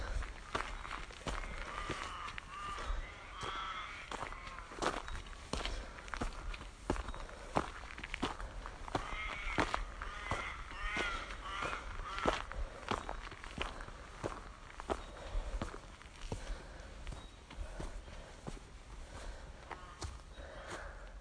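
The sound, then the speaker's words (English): Footsteps walking uphill on an outdoor path, many regular crunching steps in a steady rhythm, moderately loud and heard alone. “This could be a very, very long walk. I'm barely up the first bit of hill.”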